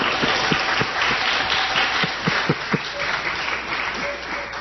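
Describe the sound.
Audience applause congratulates a tree at a talk about trees drawing water from fog: dense, steady clapping that holds at an even loudness for several seconds, with a few sharper claps standing out.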